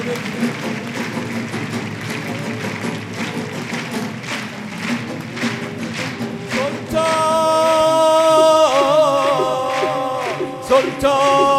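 A crowd at a religious gathering honouring Imam Reza claps along in a steady rhythmic beat, and a sung melody joins partway through over the continuing claps.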